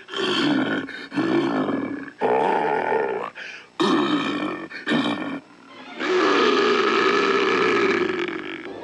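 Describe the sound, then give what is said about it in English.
A bear growl produced as a sound effect with a lamp chimney: a run of loud, rough, throaty roars in separate bursts, closing with the longest and fullest growl. “so I would take out the lamp chimney, and they'd say, what is that? I said, this is a bear.”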